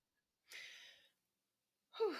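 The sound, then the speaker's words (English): A deep breath: a soft, breathy rush of air lasting about half a second that tapers off, then a pause and a sharper, louder burst of breath with a slight voiced edge. “So, I really had to, you know, take a deep breath on that one.”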